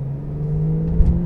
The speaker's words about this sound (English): the raspy note from the engine and from the exhaust.